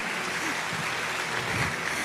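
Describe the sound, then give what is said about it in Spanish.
Applause at a religious service: a dense, steady patter of many hands clapping at moderate level, continuous throughout with no clear pauses. “Dale ese aplauso a aquel que te diseñó, aquel que te creó.”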